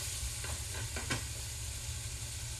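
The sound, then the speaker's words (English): Ground meat and onions sizzling in a pan while being stirred and scraped around the edges, a faint steady fry with a few soft scraping strokes near the middle and no talk. “Just keep breaking up any large clumps you see. You'll be golden. Now make sure you scrape the edges of the pan, because sometimes your onions will get stuck up there.”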